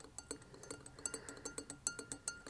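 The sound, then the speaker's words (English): A spoon stirs liquid in a glass, producing many quiet, quick metallic clinks in a steady, regular rhythm with nothing else around them. “Take your spoon and just kind of stir it around here.”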